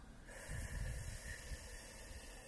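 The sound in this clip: A slow, deep breath drawn in through the nose during a guided meditation. The soft, airy rush is steady, faint and heard alone, lasting about two seconds.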